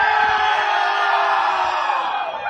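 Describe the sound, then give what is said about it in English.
Cheering and whooping from a live theater audience, a steady, loud roar of many voices that holds for the whole stretch with no clear break. “And thanks to you, our crowd of 90,000”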